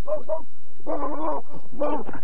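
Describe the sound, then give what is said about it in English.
A dog barks and yips in a few short bursts, with clear tonal, whining cries separated by brief pauses. “That dog.”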